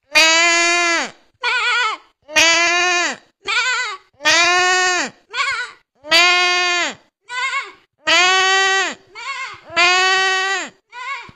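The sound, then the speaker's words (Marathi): A person imitates a sheep bleating with a voice, giving a steady series of loud, wavering bleats that alternate between longer and shorter calls, with brief gaps between them. “आता आम्ही मेंढीचा आवाज काढून दाखवणार आहे.”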